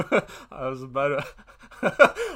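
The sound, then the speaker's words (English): A voice imitates wheezing and choking, mimicking the Asphyx creature from Hellraiser (2022). Harsh breathy gasps frame a strained, drawn-out voiced tone in the middle, followed by more ragged panting gasps. “Yeah, that's one that's, like, wheezing, like, choking all the time.”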